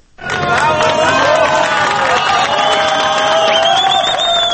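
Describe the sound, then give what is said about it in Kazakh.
A crowd cheers as the first trapped miner is lifted from underground at a Chilean mine rescue. A loud, sustained roar of many voices carries shouts and shrill calls above it, unbroken throughout. “Жер астынан алғашқы кеншіні көтеріп шығарғанда жиналған жұрт зор қуанышпен қарсы алды.”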